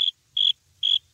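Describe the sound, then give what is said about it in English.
Crickets chirp in three short, high-pitched trills, evenly spaced and clear against near silence. “It's kind of funny, too, when you think of crickets like as, you know, the sound you hear when like a joke doesn't land.”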